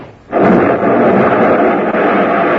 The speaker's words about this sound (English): The car went up in a blast of powder and gasoline